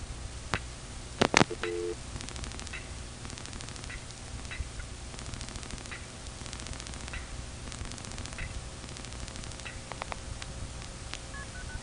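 Multi-frequency telephone signaling tones dial a number into an Arlington exchange: a few short, stacked beeping tone bursts over faint line static, then a long quiet stretch of light clicks and a short tone near the end.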